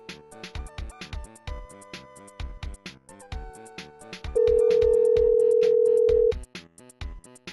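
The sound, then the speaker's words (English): Telephone touch-tone dialing: many short beeping tones in quick succession, then a long steady tone lasting about two seconds, followed by a few more beeps. “The phones dial so slow.”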